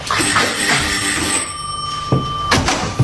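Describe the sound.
A telephone bell rings with loud, sustained metallic ringing that carries on for most of the moment, then stops, followed by a few soft knocks.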